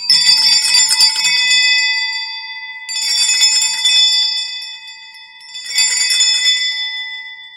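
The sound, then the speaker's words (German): A set of four altar bells, held up and rung by hand, rings in three bright, shimmering bursts, each sustaining a chiming tone before briefly fading, with short gaps between rounds. “es sind vier, vier Glocken, die man oben halten kann und deswegen, ja, haben ein ganz schönes Gewicht”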